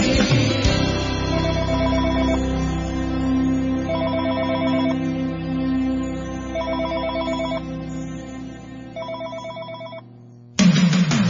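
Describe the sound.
A telephone rings in four bursts of rapid electronic trilling, evenly spaced over a sustained music bed, before the sound cuts out briefly near the end.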